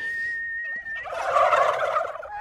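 Turkeys on a farm give a rattling, bubbling gobble that swells for about a second and a half, preceded by a thin steady tone.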